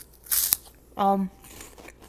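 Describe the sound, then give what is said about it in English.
Crunching as someone chews a Cheeto: a short, crisp, crackly burst of bites, followed by a brief low hummed voice sound. “Sorry, I'm chewing on this Cheeto.”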